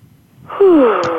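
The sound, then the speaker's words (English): A deep breath taken during a relaxation exercise, building from soft airflow into a loud, voiced sighing exhale that falls in pitch. “So one deep breath, another deep breath”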